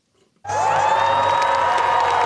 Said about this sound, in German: Es ist eines ihrer schlechtesten Ergebnisse seit rund 100 Jahren. Und trotzdem jubeln Schwedens Sozialdemokraten.